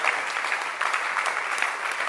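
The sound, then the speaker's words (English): An audience at a Christian sermon stands and claps: dense, steady applause from many hands, continuous and fairly even in loudness throughout, with no clear voices above it. “Can you stand up and clap for the spirit of Jesus?”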